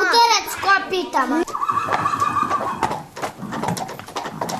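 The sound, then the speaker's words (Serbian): A human voice imitates an angry horse, giving a wavering, high neigh at the start. Children's voices chatter afterward. “A kako li tek izgleda kad se naljuti? Znam kako se ljuti konj.”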